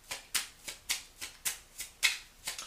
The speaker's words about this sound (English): Let me go ahead and take two cards from the Divine Doors right quick.